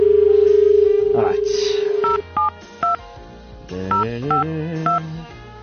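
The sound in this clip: Touch-tone beeps of a telephone number being dialed follow a steady dial tone. Six short, bright beeps come in two groups of three with a pause between them.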